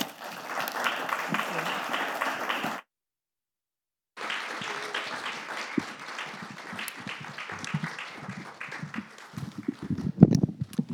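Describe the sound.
An audience applauds to welcome guests to a panel discussion on internet governance. Dense, steady clapping breaks off into a short silence, then resumes and gradually thins, with a voice emerging near the end.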